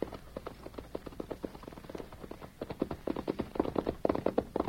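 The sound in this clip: Horse hooves clop along a road as a rider rides up. Steady, rhythmic hoofbeats grow a little louder and quicker toward the end.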